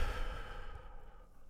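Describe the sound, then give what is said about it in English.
A deep breath in and out during a guided breathing exercise, heard as one soft, breathy rush of air that slowly fades over about a second and a half, with no talking. “So, three big, deep breaths. Here we go. One, big breath in. and out.”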